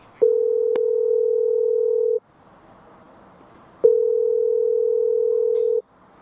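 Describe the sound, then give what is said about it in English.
Telephone ringing tone while waiting for someone to pick up: two long, steady mid-pitched tones of about two seconds each, separated by a pause of faint hiss. “Pick up the goddamn phone, dude.”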